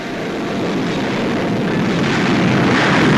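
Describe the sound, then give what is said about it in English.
A Gloster Meteor jet fighter sets out after a radio-controlled target plane during a missile test, making a loud, continuous roar that grows slightly stronger over a few seconds. “Now the Meteor sets out to hunt down its quarry.”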